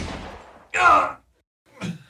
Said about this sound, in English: Shooting an unarmed man? Despicable!